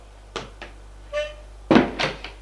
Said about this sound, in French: Domestique ouvre la porte et dit « Madame Carole Borche !» et la laisse passer.